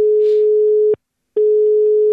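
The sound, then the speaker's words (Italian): Telephone line tone as a call is put through on an Italian radio phone-in: a loud, steady single-pitch tone sounds for about a second, breaks off for a short silent gap, then resumes just as steadily. “Andiamo subito al telefono su Radio Toscana”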